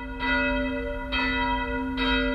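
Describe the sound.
Church bells of a neo-Gothic church ring in three full strikes, roughly evenly spaced, each leaving a rich, sustained metallic hum that overlaps the next.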